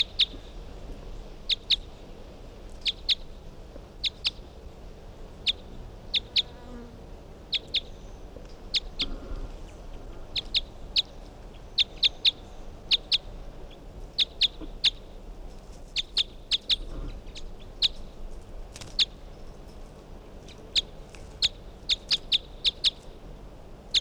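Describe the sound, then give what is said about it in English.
Bird calls ring out as many short, high chirps repeated in quick bursts throughout, loud and bright over a faint low background, with no voices. “Bird 363.”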